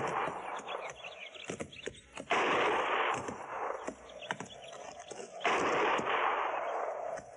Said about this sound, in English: Didn't sound like no regular shooting.